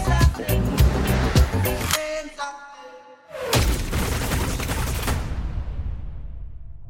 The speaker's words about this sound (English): Is that like a machine gun scene?